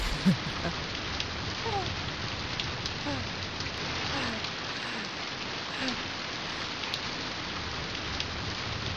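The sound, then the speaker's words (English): Steady rainfall, a dense continuous hiss of falling drops with scattered individual patters, even in loudness from start to finish. “let's hear the rain.”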